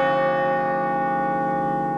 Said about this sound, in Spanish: Todo esto se cierra con un campanazo que ya lo hago en 3, 2, 1 y lo hice.